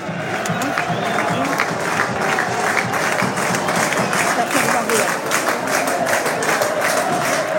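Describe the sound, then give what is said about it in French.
The Pau home crowd cheers and claps in the final seconds of a game against Laval. Steady, rhythmic clapping and broad crowd noise continue throughout, with a voice talking over them. “Les encouragements du public palois pour les dernières secondes.”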